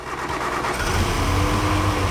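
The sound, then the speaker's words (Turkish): Car engine running rough on only two cylinders, the third and fourth not firing, idling alone as a steady, uneven low rumble with a faint lumpy pulse and no talk. “motor işbirliği yapmıyor. İki silindirle çalışıyor.”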